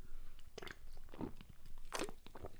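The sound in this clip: Crunchy chewing as a person eats, with a few distinct bites and crunches spread through a steady, faint background and no talking.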